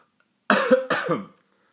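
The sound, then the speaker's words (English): Two harsh coughs from a person who has eaten cannabis edibles, loud and close together, standing alone against silence. “Were you sick before this? I've never heard of coughing being a side effect of edibles.”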